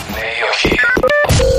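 Touch-tone beeps of a telephone number being dialed: a few short, steady electronic tones that sound together with busier mixed background sound.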